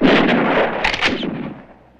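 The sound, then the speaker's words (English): Rifle gunfire exchanged between opposing sides: several loud, sharp cracks run together into a rough burst, then trail off in a fading rumble. “John shoots. The opposing factions trade shots.”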